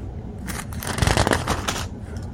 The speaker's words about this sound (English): Now, I'm trying to fold these pages and read both of them.